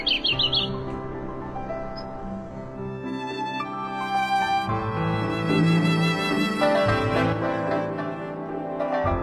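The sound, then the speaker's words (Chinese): Birds chirp and tweet in Beijing's Daxing district, with bright, quick calls at the start and then a steady stream of tonal chirps over a continuous background. “千年大兴，百鸟栖息”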